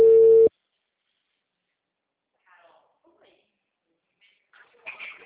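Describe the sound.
A telephone tone after a dropped call: one loud, steady beep lasting about half a second, then near silence, with faint, brief voices toward the end.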